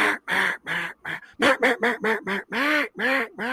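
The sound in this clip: A blown duck call imitates a duck quacking in a series of nasal quacks: a few spaced ones, then a quick run of short, clipped quacks, ending with longer, drawn-out calls.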